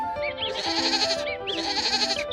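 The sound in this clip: Two long, wavering goat bleats in a pasture, each a loud, nasal, quavering cry, one following the other after a brief pause.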